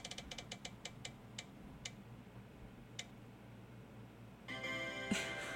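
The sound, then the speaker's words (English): A prize wheel spins and ticks. Rapid clicks spread out steadily until a last lone tick as it stops, then a brighter tonal sound starts near the end. “Oh, is that a wheel?”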